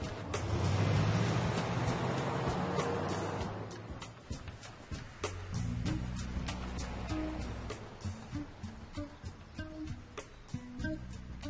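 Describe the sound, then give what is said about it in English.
A loaded van drives away. A broad engine rumble is strongest in the first few seconds, then eases and fades, leaving lower, steadier tones with light intermittent clicks. “He drives away.”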